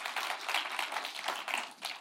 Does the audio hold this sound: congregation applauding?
yes